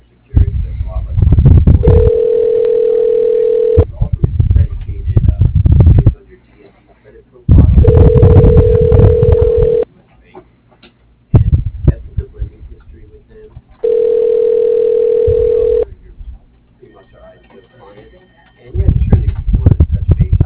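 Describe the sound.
A telephone ringback tone plays while a call is being transferred: three steady, mid-pitched tones of about two seconds each, separated by longer stretches of muffled, noisy line sound, all with thin telephone-band quality.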